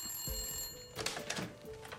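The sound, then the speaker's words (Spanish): A telephone rings faintly with a steady, high electronic tone, joined by a few brief louder bursts in the second half. “Desde la finca donde fue hecha la llamada del aniversario, llamaron a los Yeager.”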